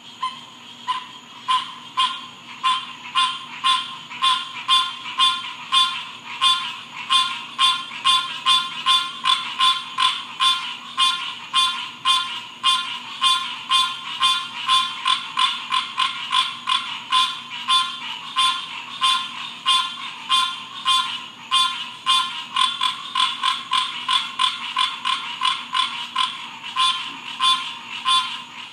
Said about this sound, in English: that was the sound of the frogs behind our house in Florida